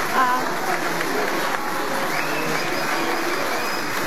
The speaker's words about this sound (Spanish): Pese a ello, los aplausos continúan para la presidenta Keiko Fujimori, quien se ofrece